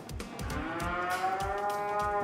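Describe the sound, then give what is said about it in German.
Cattle moo in a cowshed on a farm in Schleswig-Holstein. A single long, loud, low moo swells in and holds steady to the end. “Auf Hof Hahnenkamp in Schleswig-Holstein ist heute im Kuhstall mächtig was los”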